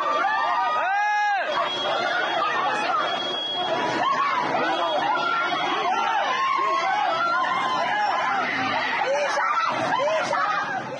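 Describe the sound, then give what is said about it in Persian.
A crowd of street protesters in Bandar Abbas, Iran, fills the whole clip with a dense, continuous babble of many voices and scattered shouts at a steady level. “صدای اعتراضات مردم بندرعباس را نیز بشنویم.”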